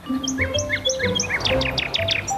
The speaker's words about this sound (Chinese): 这个声音，鸟儿好像很着急，快去看看。